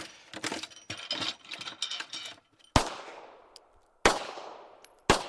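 An ammunition reloading press cranks out .38 Special rounds. Rapid mechanical clicking and rattling comes first, then three sharp, loud clanks, each ringing and fading out.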